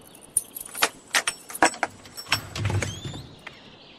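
A jangling bunch of keys opening the padlock on a door: a quick series of sharp metallic clinks and rattles, then a duller, lower clunk, with no voices.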